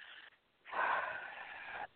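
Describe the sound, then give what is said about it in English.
Breathing in through the nose and out through the mouth as a guided breathing exercise: a faint brief puff, then one long, airy, slightly wheezy breath of about a second, with no talk. “Take a breath in through your nose, out through your mouth.”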